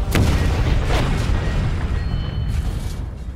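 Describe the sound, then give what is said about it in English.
A rocket explodes against a diesel tanker with a sharp opening blast, followed by a long, heavy rumbling roar that slowly fades and has a few fainter bursts within it. “The last rocket hit our diesel tanker. It didn't create the huge boom like the first one did”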